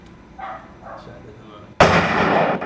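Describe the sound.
A video-game shotgun fires one sudden, loud blast that leaves a dense, noisy rumble until the end. Before the shot, a voice speaks quietly.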